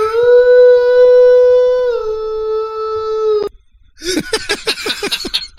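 Dogs howl along with a man's singing: one long, steady, tuneful held tone slips slightly lower midway and then breaks off. After a brief gap comes a rapid run of high, yelping pulses.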